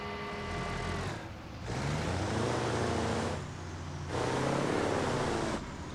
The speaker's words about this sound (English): Now listen to the steering. It's literally, it's hydraulic steering.